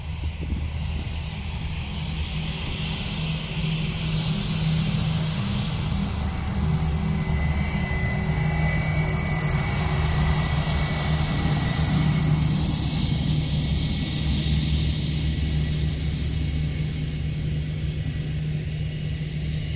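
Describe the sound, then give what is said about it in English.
Two Wizz Air planes preparing to take off produce a loud, steady jet roar: a deep, constant rumble topped by a high engine whine, with no sharp pass-by peak. “just as two Wizz Air planes come whirring past, preparing to take off”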